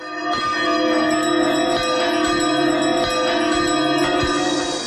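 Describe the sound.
Two church bells ringing together, loud metallic strikes repeating at a steady pace, with bright overtones that hum and linger between blows. No voices.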